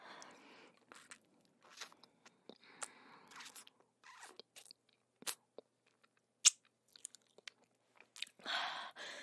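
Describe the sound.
Chewing as someone tastes food, with irregular moist clicks and small crunches, faint and intermittent, and a few louder bites between quiet gaps.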